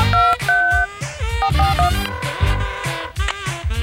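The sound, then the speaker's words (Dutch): A telephone number is dialled on a keypad: a quick series of short, clean beeping tones over other busy sound, with no talk. “Nou, kom neem op, er zal toch niks gebeurd zijn. Even een ander nummer proberen.”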